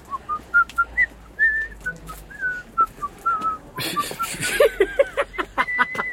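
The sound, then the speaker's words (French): A person whistles a tune in many short, bright melodic notes at an even pace. Partway through, a noisier burst of other sound joins in while the whistling continues above it. “Oh, j'y arrivais pas. C'est Fritz Lang qui a sifflé à ma place.”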